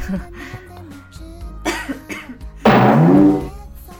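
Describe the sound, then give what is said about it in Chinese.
A single sharp, loud cough bursts out near the end, following some quieter vocal sounds and a brief throaty noise. “怎么咳嗽了？咱们俩怎么了？刚刚我咳嗽，现在你咳嗽。”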